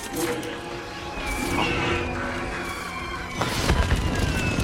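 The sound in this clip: Explosion in an action film as a runaway carriage smashes into a truck: a noisy roar with thin whistling tones builds, then a louder, low-heavy burst of crashing noise erupts near the end.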